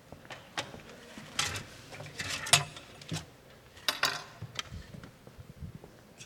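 Knife cutting into a birthday cake, with faint clinks of cutlery and plates, a few soft taps and scrapes scattered irregularly over quiet background.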